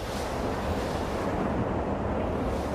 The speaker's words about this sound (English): And that's the sound of the prototype, churning away in the North Hollywood subway tunnel, with trains whooshing by at 70 miles per hour.